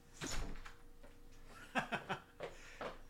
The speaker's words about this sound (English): I'm gonna shut the lockers, all right?